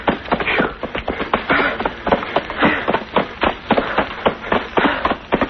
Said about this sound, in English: Running through leaves up to my knees. We'll be through them in a minute. I feel like I'm trying to run on an inner spring mattress.